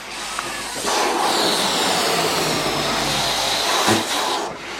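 Released rubber balloons whizzing through the air as their air rushes out, a loud continuous raspy hiss lasting several seconds and swelling briefly near the end.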